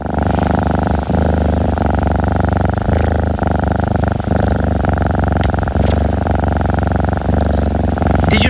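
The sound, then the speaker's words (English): A healthy, well-cared-for cat purrs loudly and steadily, a continuous rhythmic rumble with a slow pulse that carries on without a break and with no voices. “recognize that sound? That's the sound of a healthy, well-cared-for cat.”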